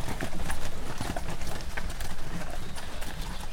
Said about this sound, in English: Stop the wagon, I have to go.